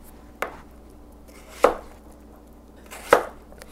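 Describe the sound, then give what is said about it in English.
A knife chops through a large Napa cabbage being cut up for kimchi, striking the board in three sharp, separate thuds spaced over a second apart against a quiet background. “I bought another massively huge Napa cabbage from an Asian grocery store in the same neighborhood. Okay, so now I'm going to slice them up.”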